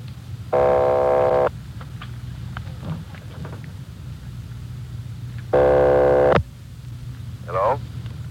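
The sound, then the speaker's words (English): A telephone line rings twice on a long-distance call from Los Angeles to Napa in a 1949 police drama. Each buzzy ring lasts about a second, over a low hum and background noise, and a brief voice comes at the end. “Keep ringing, 761. They're ringing the number, Sergeant.”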